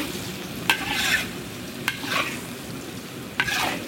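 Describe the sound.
Red curry paste frying in oil and being stirred: a steady low sizzle runs throughout, broken by three scraping strokes of the stirring utensil.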